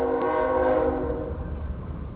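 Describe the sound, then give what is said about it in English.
A passing train sounds its horn in a sustained multi-tone blast that fades after about a second, leaving a steady low rumble of the rolling cars. “And, wow, we got a train in the background.”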